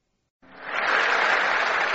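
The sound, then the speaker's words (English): Audience clapping bursts in after a short silence and quickly swells into a dense, sustained roar of many hands at a crowd gathering cheering for Margaret Thatcher. “Oi, oi, keep clapping, will you?”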